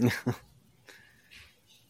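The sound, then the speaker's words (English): Dogs bark: two sharp, loud barks come in quick succession at the start, followed by faint, softer noises. “Got them dogs barking.”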